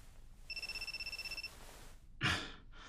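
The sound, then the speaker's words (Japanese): A phone ringtone for an incoming call from a withheld number: a steady, rapidly pulsing high electronic trill lasting about a second. After a short pause comes a loud breathy sigh. “1時間待つことになるのか。また非通知だな。出ずに切るかな。”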